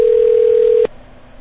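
A telephone ringing tone on an outgoing call sounds as a single steady, clear tone that holds for under a second and then cuts off abruptly, leaving faint low hiss.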